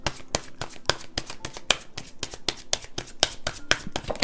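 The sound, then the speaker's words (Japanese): Oracle cards being shuffled make a rapid run of many sharp, snapping clicks at a fairly regular pace, crisp and moderately loud with no talk over them. “では今日もカードからメッセージ1枚もらっていきます。”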